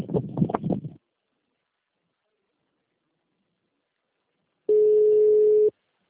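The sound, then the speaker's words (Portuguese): A voicemail recording tone sounds after the message prompt on a phone line: a brief voice, then silence, then a single steady mid-pitched beep lasting about a second before cutting off. “Pode deixar seu recado, você só será tarifado após o sinal.”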